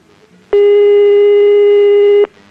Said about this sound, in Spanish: Estamos llamando a este número.